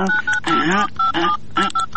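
Telephone keypad dialing tones sound in a quick, uneven run of short beeps at differing pitches, as a number is punched in.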